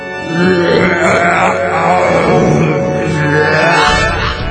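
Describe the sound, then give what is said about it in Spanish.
An enormous, loud burp rumbles low and drawn out for about four seconds. It carries a rough, growly harmonic tone and fades at the end, heard alone without talk. “soltó un eructo de proporciones gigantescas que hizo despeinar a todo el pueblo.”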